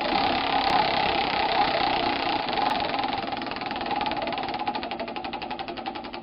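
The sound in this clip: A prize wheel spins with a steady mechanical whir, its rapid, even ticking clicks becoming more distinct toward the end; no voices are heard.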